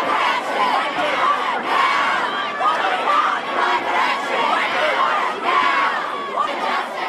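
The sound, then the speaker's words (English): Crowd of young people on a climate strike protest march in Brisbane, Australia, making a loud, continuous roar of many voices with shouts and chanting rising through it. “Those are the sounds of a protest march dominated by young people in Brisbane, Australia, where the first actions of the global climate strike kicked off on Friday.”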